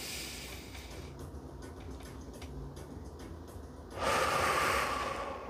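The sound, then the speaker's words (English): A single deep breath, a loud airy rush that rises out of a quiet stretch of faint, regular clicking and holds for over a second. “Take a deep breath for me, ladies and gentlemen.”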